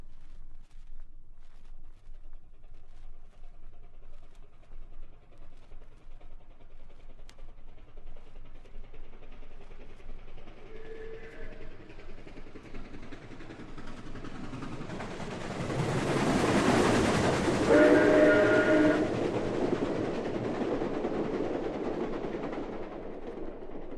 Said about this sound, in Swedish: Lyssna på det här tåget som sveper förbi vid en station. Du kommer att tydligt höra hur det rusar in ifrån höger och försvinner ut till vänster.